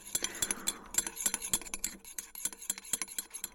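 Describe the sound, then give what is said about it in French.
Clinking of a utensil against a container as garlic is mixed with oil, a run of many quick, irregular light clinks and taps, fairly faint, with no voices. “D'abord, on nettoie l'ail et on mélange avec l'huile”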